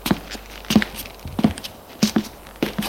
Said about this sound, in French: Il monte à l'étage.